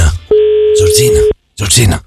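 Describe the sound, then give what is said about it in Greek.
A telephone dial tone sounds as a rotary phone is dialed: one steady, clear tone holds for about a second. Loud, noisy bursts overlap its end, and another noisy burst follows after a short silence. “έχει βάλει τα δαχτυλάκια του πάνω στο καντράν του τηλεφώνου για να καλέσει τους κληροθέντες”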